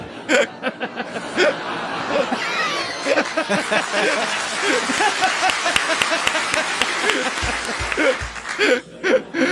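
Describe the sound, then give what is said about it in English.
Audience clapping mixed with chuckles and scattered laughter, an uneven run of claps that continues for most of ten seconds while voices talk over it. “I like the clapping.”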